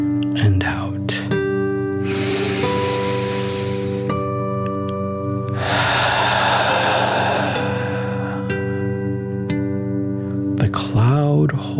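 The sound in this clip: Forceful dragon-like breathing: long, breathy rushes of air swell and fade over a steady, sustained musical drone.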